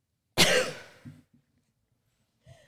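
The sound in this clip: A single sharp, harsh cough from a woman with a cold, loud and abrupt, followed by a few faint throaty after-sounds and a brief muffled catch near the end.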